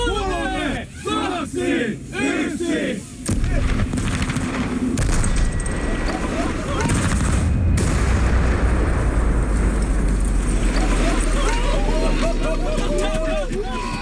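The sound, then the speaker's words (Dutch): A Tesla car blown up with 30 kilos of dynamite erupts into a sudden, loud, sustained roar after a few seconds of talk, and long rumbling noise follows with a crowd shouting and cheering. “Hij zette een pop van Tesla-topman Elon Musk achter het stuur en liet de auto ontploffen.”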